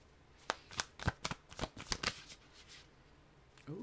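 Tarot cards being shuffled, a quick run of many crisp riffling snaps, then a lull and a soft card swish at the very end.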